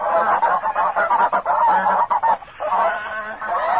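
A goose honks loudly in a rapid series of nasal calls, with a short break past the middle before the honking resumes. No voices are heard.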